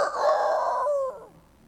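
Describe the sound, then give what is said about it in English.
A single rooster crows somewhere in a city: a loud, harmonic call that holds steady, then trails off and fades away in the final half-second. “There was a rooster somewhere in the city, and it crew.”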